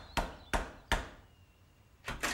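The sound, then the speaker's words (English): Knocking on the door of a house: three evenly spaced sharp raps, a short pause, then two more quick knocks, crisp and alone with no talk. “So by and by, they knocked at the door of Piglet's house.”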